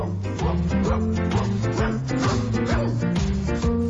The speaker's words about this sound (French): comme vous pouvez entendre en ce moment, on a nos amis et les chiens et les chats qui nous accompagnent dans l'arrière-plan, si vous voulez écouter.